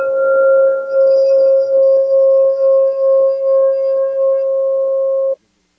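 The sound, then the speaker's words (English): A crystal singing bowl rings out as one pure, sustained mid-pitched tone with faint higher overtones, swelling and ebbing in gentle, regular pulses before stopping abruptly near the end. “I'm just going to play a crystal bowl real quick just to set the intention before our first guest stands with Bear. So just close your eyes and just let this frequency penetrate you.”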